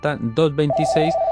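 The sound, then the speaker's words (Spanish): An electronic telephone ring tone signals an incoming call on a phone-in line: one steady, sustained mid-pitched tone starts partway through and overlaps a talking voice. “Tenemos una llamada.”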